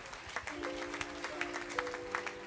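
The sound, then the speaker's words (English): Congregation clapping as a clap offering to the Lord in a church service, with faint, scattered claps popping out irregularly over sustained musical tones, quiet throughout. “Give the Lord a clap offering somebody.”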